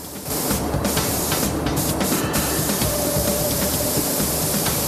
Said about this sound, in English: With the tracks masked off, white undercoat is sprayed on over a layer of olive green primer paint.